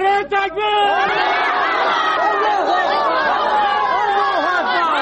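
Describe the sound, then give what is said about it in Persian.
Protesters in Bagram, Parwan province, Afghanistan, chant anti-American slogans against house searches by American forces. The mass of shouting voices is dense and loud, with overlapping cries rising and falling continuously throughout. “این مظاهره چیان پیش از ظهر روز یکشنبه با سر دادن شعارهای ضد آمریکایی اعتراضاتشان را بیان کردند”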